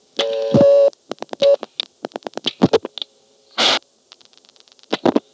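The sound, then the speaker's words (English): A seven-digit telephone number is dialed: a steady multi-pitched tone opens, followed by a rapid string of short clicks and beeps, a longer hissing burst, then a few more clicks. “I'll dial a 7-digit intercept number.”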